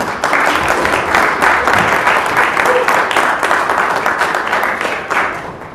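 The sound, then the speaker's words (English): Steady, dense applause from a church audience welcoming the pastor at a Second Sunday of Advent service, sustained for several seconds before tapering slightly at the end. “So why don't we give a hand, Pastor Doug.”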